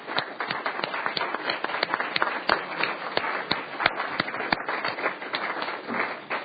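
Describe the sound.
Clapping to welcome guests on the floor of the Wyoming Senate, with sharp, distinct claps in a fairly steady rhythm over a soft bed of further applause, moderately quiet overall.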